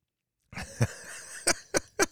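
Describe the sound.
A person coughs out water in several harsh coughs, the last three short and sharp in quick succession.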